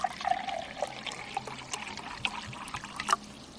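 Liquid pouring as more drinks are served, a faint, continuous trickle and splash lasting a few seconds, with small bursts of dribbling and no talk.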